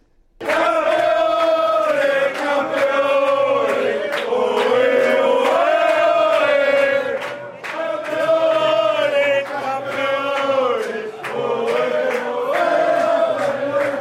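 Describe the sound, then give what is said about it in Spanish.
Spanish football fans celebrating their team's World Cup final win over England, gathered at a Spanish community club in Melbourne, singing and chanting loudly in unison with sustained, wavering tones that carry on almost without a break. “Así sonaba la victoria de España ante Inglaterra en Australia.”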